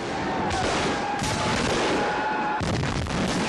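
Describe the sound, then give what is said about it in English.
Gunfire at a Civil War battle reenactment at Manassas battlefield in Virginia, a dense, unbroken roar of overlapping shots that stays loud throughout. “That's a Civil War battle reenactment at Manassas Battlefield National Park in Virginia.”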